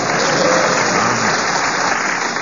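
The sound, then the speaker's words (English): An audience at a television quiz game claps in a thick, continuous wash of applause that stays steady and fairly loud throughout. “We've got more applause”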